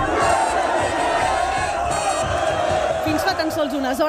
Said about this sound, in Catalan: I aquest era el so dels carrers de Barcelona fins a ben entrada la matinada.